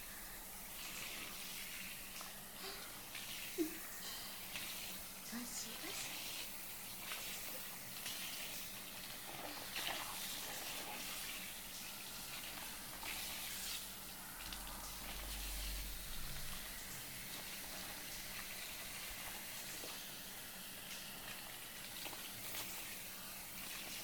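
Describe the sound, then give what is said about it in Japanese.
Rinse water flows over a surface, washing away dirt loosened by scrubbing. It makes a quiet, steady rushing hiss that continues throughout without pause. “浮かせた汚れをしっかり流して”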